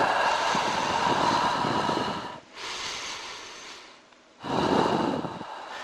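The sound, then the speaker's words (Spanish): A person breathing slowly: long, airy, rushing breaths, a loud one, a softer one and another loud one, separated by short silences, with no other sound. “Escucho mi respiración.”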